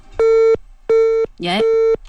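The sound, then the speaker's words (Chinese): Telephone busy tone on a call-in line after the caller hangs up: three steady, evenly spaced mid-pitched beeps, loud and clear, with a voice talking over the third. “李女士挂了电话了啊。我们的导播重新来接一下啊。”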